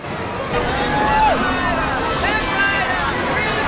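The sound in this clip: Bustling crowd hubbub at a carnival fairground, a steady wash of many overlapping voices with a few brief tonal squeals rising above the noise.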